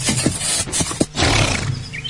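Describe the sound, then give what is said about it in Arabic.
A horse neighs in rough, breathy bursts, loud against a dense, noisy background with no talking. “اسمحولي نسقي الحصان.”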